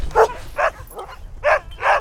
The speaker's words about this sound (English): Now here's our main yard. About 35 dogs wag their tails and jump on their chains, each with athletic, long legs and lean bodies.